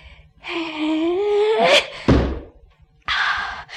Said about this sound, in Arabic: انا هقدم للحياه دي احسان وارمي الحجر ده فوق دماغ التعبان. هو مشغول بالحيه مش واخد باله من حاجه تانية.